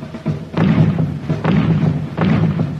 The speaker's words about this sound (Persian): خب حالا هر کدوم برین یه نارنجک جنگی بردارین و تک تک برین جلو تا نزدیک اون هدف که براتون مشخص کردم.